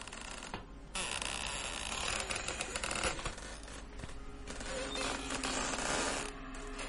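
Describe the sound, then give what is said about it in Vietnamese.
An old door in a worn room creaks open with a long, faint, grating creak that drags on for several seconds. “sau đó liền mở cửa. Có lẽ là vì căn phòng đã cũ, tiếng cửa kêu lên cót két nghe đến giận cả người.”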